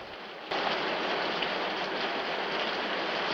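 Heavy rain battering down outdoors, starting abruptly and then holding as a loud, dense, unbroken hiss.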